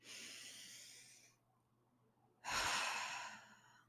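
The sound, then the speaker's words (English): A slow, deep breath taken to calm down: a long airy inhale, a brief silent pause, then a longer, louder breathy exhale that fades out gradually. “let's stop and take a deep breath with me for a second to calm down.”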